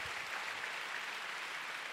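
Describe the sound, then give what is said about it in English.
Church audience applauding, giving God a big hand during a sermon. The clapping is dense and steady and holds at an even, fairly quiet level with no talk. “Oh, you want to clap? Go ahead and give God a big hand.”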